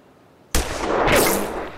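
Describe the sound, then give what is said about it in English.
A single rifle shot cracks out sharply after a brief quiet, followed by a loud, broad rushing tail that lingers and slowly fades. “Now, raise the end up of the rifle just a little bit and put that black sight post right in the middle.”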